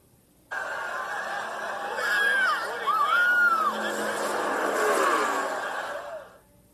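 Race cars roar in the iRacing video game at a virtual NASCAR Talladega race: a steady, dense engine drone with whining tones that rise and fall, holding loud for about six seconds before fading.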